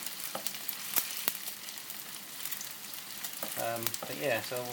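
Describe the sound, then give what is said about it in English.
Thick, stubby beef burgers fry in a pan, giving a soft, continuous sizzle with occasional sharp crackles and pops. “All around the outsides, they're pink because the meat's not cooked there. Trying to balance them all on their edges now. Cook the edges.”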